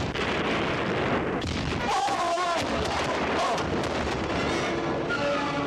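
Cannon fire on a ship during a naval battle: continuous loud, roaring blasts and rumbling booms in a dense barrage, with shouted commands mixed into the din.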